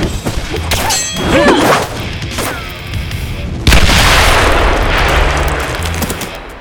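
Satchel charges are thrown and explode in the snow, bringing a few heavy booms and crashes, with the biggest blast partway through followed by a lingering rumble.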